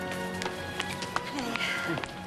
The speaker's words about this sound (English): Nurse Judy hurries down the steps.